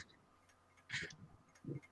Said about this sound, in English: Is that you with a ticking clock, Marty, in your office?